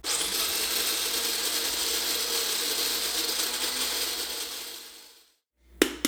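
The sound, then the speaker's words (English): A coffee grinder grinds beans with a loud, steady whirring grind for about five seconds, then winds down to silence, followed by two sharp clicks. “then he's gonna grind the coffee, so we'll be right back after that.”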